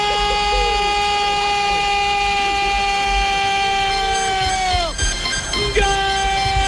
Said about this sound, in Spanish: Se fija, se emocionaron allá y le pusieron hasta pito y todo.